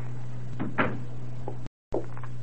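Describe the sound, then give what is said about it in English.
A door being shut: a couple of soft knocks and thuds over a low steady hum, then a short silent gap and one more faint knock. “I'll just shut the door and...”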